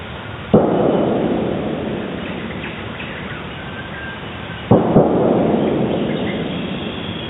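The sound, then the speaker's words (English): Two gunshots caught by a wildlife acoustic monitoring recorder amid natural background sound. Each is a sharp crack followed by a long, rumbling decay, the shots about four seconds apart over a constant hiss. “Obviously, at this point, the shots have been fired. So if they were aiming at an animal, the animal is already dead.”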